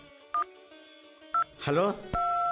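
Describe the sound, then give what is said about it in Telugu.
Telephone keypad tones as a number is dialed: two short beeps about a second apart, then a brief voice-like burst, followed by a steady held tone that runs to the end. “ఉండు, వెంటనే మీ చెల్లెలకి phone చేసి చెప్తా.”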